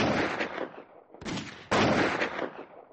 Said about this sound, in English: at that moment some shots came from the cliff.